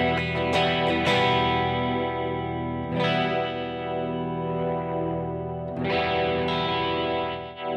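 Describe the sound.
A DJ flanger effect with the blend knob set near the reference deck and extra wobble: sustained tones pass through a hollow, swirling, jet-like sweep that swells and fades in slow waves, with no voices.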